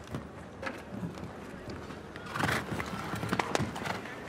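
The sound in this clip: Hoofbeats of a horse galloping over a show jumping course with tall fences, a water ditch and a triple combination, giving uneven rhythmic thuds that grow louder in the second half.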